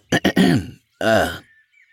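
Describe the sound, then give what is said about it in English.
A man clears his throat with a few short rough bursts, then a longer voiced grunt. After a brief pause comes one more drawn-out rasping clear, all close and alone. “he cleared his throat.”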